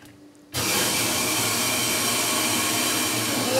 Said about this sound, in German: So, Notablass ist immer die rote Schraube. So, ich drehe jetzt mal, dann hört man nämlich, wie das Öl zurückläuft.